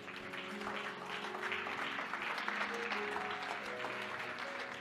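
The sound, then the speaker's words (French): Congregation applause during a church sermon as worshippers acclaim the Lord, a steady, sustained wash of many hands clapping at an even level over faint held tones. “Acclame le Seigneur.”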